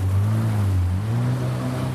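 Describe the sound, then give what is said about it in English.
Steady engine drone of a jet ski leaving a dock on the water, towing a rider on a hydrofoil board by rope; a continuous low hum with a broad wash of water noise, constant throughout and with no voices. “He grabs the tow rope and steps onto the board as the jet ski leaves the dock.”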